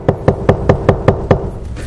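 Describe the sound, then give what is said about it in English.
Seven loud, firm knocks on a door in an even, steady rhythm, each a sharp knuckle rap with no voices. “we'd want to know who it is. So we would look out and we would see whoever it is, and that would probably determine whether or not we answer the door. And whether or not we would recognize Jesus knocking”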